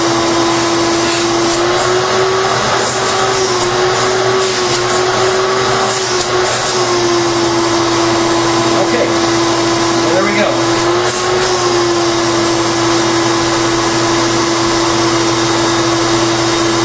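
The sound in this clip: A 16-gallon wet/dry vacuum, one of the maker's most powerful models, runs continuously with a loud, even roar and a steady mid-pitched whine.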